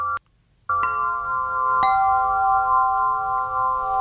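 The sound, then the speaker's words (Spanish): A samafón, a therapeutic sound instrument, is struck and rings with a steady, sustained chord of mid-pitched metallic tones. A second strike partway through adds to the shimmering drone. A brief near-silence comes before it. “Este es el samafón. Escucha.”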